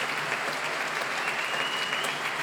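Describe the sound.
Concert audience applauding the BBC Big Band after a Stan Kenton tribute performance, a steady, dense patter of many hands clapping that stays even and fairly soft throughout.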